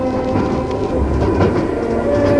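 A train rumbles on as one loud, steady low roar with a tonal hum running through it, unbroken for the whole stretch.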